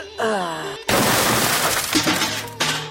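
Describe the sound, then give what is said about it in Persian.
A wooden door being broken down, heard as a loud burst of crashing noise lasting about a second and a half, with a raised voice just before and after it. “بیا که دروازه رو بشکنانیم.”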